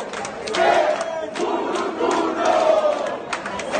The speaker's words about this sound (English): Supporters cheered for PSOL mayoral candidate Guilherme Boulos, the leader of the homeless workers movement, after he voted on Sunday.